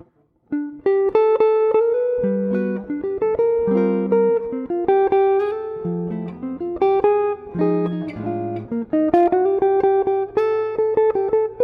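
A jazz standard melody played on a single instrument with sharp, plucked-sounding attacks: many quick notes in a lively, swinging line that moves up and down through the mid register, with brief gaps between phrases.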